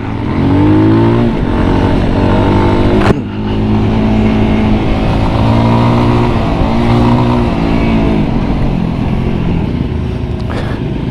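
A VOGE 300 Rally motorcycle engine drones loud and steady on a test ride, its harmonic tone breaking off briefly once before pulling on again.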